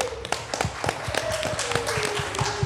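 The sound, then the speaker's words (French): Clapping at a live festival radio broadcast honours the La Passerelle and PAF Radio teams: many scattered, sharp hand claps, fairly quiet and irregular, with a sustained tone running beneath. “Moi, j'ai juste envie de faire un grand big up, évidemment, à toute l'équipe de La Passerelle, à toute l'équipe de la PAF Radio, que j'ai envie d'applaudir,”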